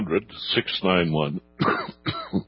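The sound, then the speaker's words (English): A person coughs and clears their throat in a few rough, voiced bursts, with one longer throaty rasp in the middle, the bursts separated by short pauses. “Can you believe I never had a cough prior to coming on air, but that's the way these things happen.”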